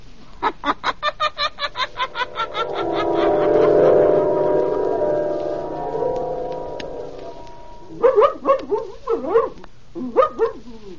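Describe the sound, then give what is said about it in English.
A dog named Blackie barks in a quick, regular run of many short barks, and then a few louder, more tonal barks come near the end. “Down, Blackie. Down, I say. Oh, if you keep squirming, I'll never get you on a leash.”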